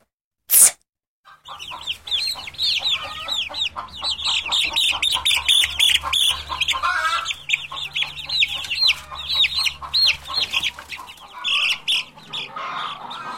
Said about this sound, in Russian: цыплята.